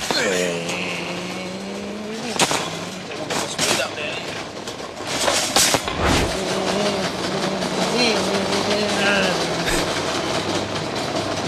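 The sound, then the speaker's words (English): A man's voice imitating a car engine while he pushes a shopping trolley at a Newmarket Coles supermarket: a sustained, loud vrooming drone with wavering, revving pitch over background clatter and other voices. “we found out on air this week that you still make engine noises when pushing a trolley around”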